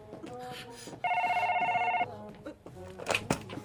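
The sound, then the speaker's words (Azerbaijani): Telephone ringing: one trilling electronic ring burst of about a second, steady in pitch and clearly louder than its surroundings, with voices talking before and after it. “İcazənizlə mən gedim telefona cavab verim.”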